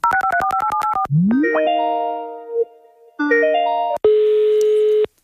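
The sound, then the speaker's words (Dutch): Telephone dialing tones of an outgoing call: a rapid run of short alternating beeps, then a rising electronic sweep and sustained chiming tones, ending in a loud steady buzzing tone. No voices. “We bellen met diensthoofd Marjolein Smit.”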